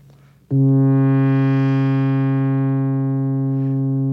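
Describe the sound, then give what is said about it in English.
A single held synthesizer note whose filter an envelope generator sweeps open and then closes. The tone grows brighter, then slowly dulls again while the pitch stays steady, loud and alone. “But if instead of my turning the knob, I use a waveform that goes up and then down every time I hit a key, we'll get a sound like this.”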